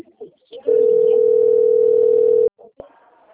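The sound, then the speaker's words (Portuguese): A telephone ringback tone while a call connects: one long, steady, mid-pitched tone of about two seconds, loud and unbroken, with faint brief sounds before and after it. “Tá ligando.”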